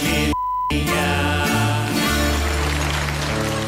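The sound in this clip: A censorship bleep: a single short, steady high-pitched beep cuts in over a word in a sung track. The music drops out under it, then resumes with singing and accompaniment.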